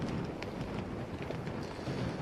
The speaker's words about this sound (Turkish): Yağış sabah saatlerine göre daha da etkili. Rüzgar da şiddetini arttırmış durumda.